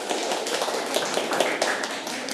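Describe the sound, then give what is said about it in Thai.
Children clap for their classmates, a dense, steady patter of many small hands that holds at an even level throughout, with no talking over it. “เด็กๆปรบมือให้เพื่อนๆค่ะ”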